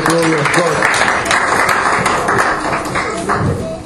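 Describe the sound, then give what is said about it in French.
A church audience applauds for the glory of God after a prayer, giving loud, sustained clapping with scattered sharp claps and voices calling out over it. “Acclamons quand même pour la gloire de Dieu.”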